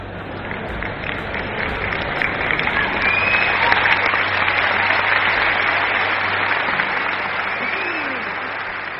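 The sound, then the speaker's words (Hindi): Audience applause at a Hindi-language motivational talk: a thick, continuous wash of clapping from many hands lasting about nine seconds, swelling slightly through the middle. “बेटे ताली बजा रहे हैं लेकिन पिताजी नहीं”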